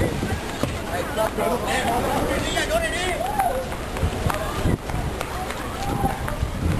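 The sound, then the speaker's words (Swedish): People run fast through a flooded area, with rapid, heavy footfalls and splashy noise under loud, urgent voices that continue throughout. “Spring fort som fan. Spring. Spring till andra sidan.”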